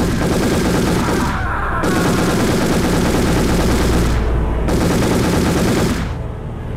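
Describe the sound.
Machine-gun fire as a sound effect: a few long, loud bursts of rapid, continuous shots with short breaks between them, heard alone without talk.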